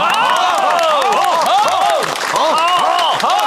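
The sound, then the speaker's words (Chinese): Applause from an assembled crowd greeting a speaker, with loud voices ringing over it throughout the short burst. “大家鼓掌。”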